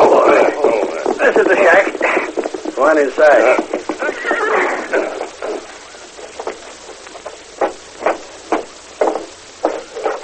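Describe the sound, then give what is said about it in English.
Horses ridden off at a clip-clop, hooves striking in an uneven run of several sharp knocks after a stretch of men talking. “Climb on your nags and follow me.”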